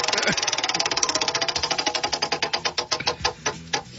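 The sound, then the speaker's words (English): A prize wheel spins with a rapid train of sharp clicks that steadily slow and spread apart over about four seconds as the wheel winds down. “I'm going to spin the wheel”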